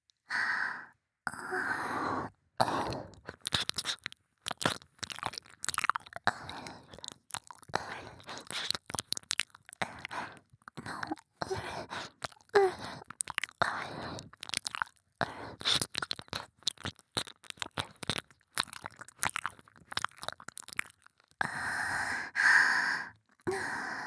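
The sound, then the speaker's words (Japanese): Wet licking on a right ear: many short, moist slurps and smacks in an irregular, bursting rhythm, with soft breathy sighs and mouth noises between them and no talk. “夢中になって舐めていたら、右耳がすっかりふやけてしまいましたね。”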